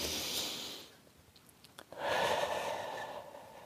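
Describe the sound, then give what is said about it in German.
Deep breathing in and out during a guided relaxation, with two airy breaths separated by a short quiet gap. The second breath is louder and longer, and no one speaks. “schließ die Augen und atme einmal tief ein und aus”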